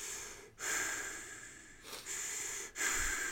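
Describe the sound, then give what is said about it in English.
Soft breathing, a few long airy breaths in a slow, even rhythm with brief pauses between them, quiet and alone. “You don't see anything, but you hear like a soft breathing,”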